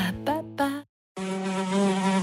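A fly buzzing in a few short harmonic bursts, then a brief silence and a steady, sustained drone that runs to the end.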